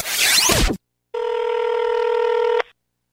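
A telephone ringing before a voicemail greeting, heard as a single steady, mid-pitched electronic ring tone lasting about a second and a half, after a short noisy burst and a brief silence.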